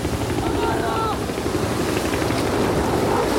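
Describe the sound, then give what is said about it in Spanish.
Helicopter passing over a rough sea while waves break against a rocky crag where a man clings. Its steady, dense rumble blends with the continuous wash of surf throughout. “Mira hacia el cielo impotente y las olas siguen rompiendo en él. Un helicóptero se marcha sin haberlo visto.”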